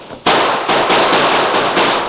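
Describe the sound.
Gunshots in a gunfight, a dense barrage of loud overlapping cracks and bursts that follow one another in quick succession with almost no pause between them.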